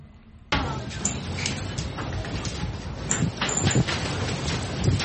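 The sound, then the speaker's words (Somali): Strong wind blows at a camp for people displaced by conflict in Lower Shabelle, Somalia. It starts abruptly, then continues as a loud, low rumble buffeting the microphone, with gusts swelling toward the end. “Dabayl xooggan ayaa halkan dhabanaysa.”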